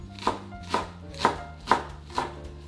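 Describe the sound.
A knife slices fresh cilantro (coriander) for a chana masala garnish, giving five steady, evenly spaced chopping strikes against a low background hum.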